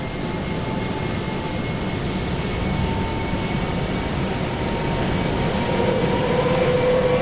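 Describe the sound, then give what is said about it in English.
Engines of a four-engine airplane start up one after another, producing a loud, steady droning roar with a faint whining tone that rises near the end. “they can hear the plane motors as they are each one fired in order. The first two are already running. Now three.”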